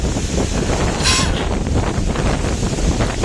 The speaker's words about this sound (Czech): Totální fujavice, totální fujavice.